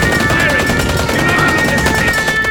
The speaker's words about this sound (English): Open fire! Keep firing!